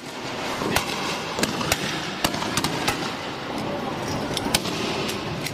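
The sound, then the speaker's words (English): Police firing tear gas at protesters in Hong Kong, heard as many sharp, loud bangs at irregular intervals over a constant rough background noise. “Well, that is the police firing tear gas.”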